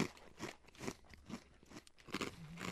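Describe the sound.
Crunching of Marmite-flavoured bagel crisps from Abe's Bagel Bakery as they are bitten and chewed: a quiet series of dry, crisp crunches at a fairly even rhythm, with no talk.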